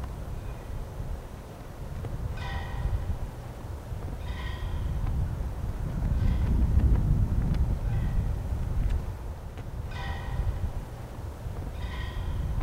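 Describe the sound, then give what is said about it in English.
A flag blowing in the wind on an open field makes a steady, gusty rustle over a low rumble, with a few brief ringing tones recurring throughout. “That's the sound of the flag blowing in the background.”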